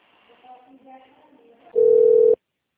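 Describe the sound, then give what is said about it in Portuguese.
A single loud, steady telephone tone lasting about half a second sounds while calling back a dropped call, following a stretch of quiet talk, then cuts off abruptly. “Acho que aí caiu. Alô, senhora Rita, está me ouvindo? Deixa eu retornar para ela.”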